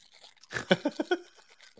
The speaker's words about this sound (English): I'm trying to get to it without spilling any cookie. Hold on, I'm going to have to eat my ASMR way in.